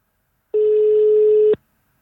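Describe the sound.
A telephone rings as a radio quiz host calls a winner: one steady, mid-pitched ringing tone about a second long, clean and alone against silence.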